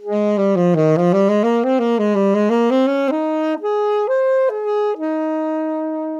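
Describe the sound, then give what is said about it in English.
Antique saxophone built by Adolphe Sax in the 1860s, playing a run of sustained, reedy notes rich in harmonics. The first several notes carry a slight waver, and a few steadier, higher held tones follow, played alone with no voices. “This is the sound of a saxophone made by Adolf Sax himself in the 1860s.”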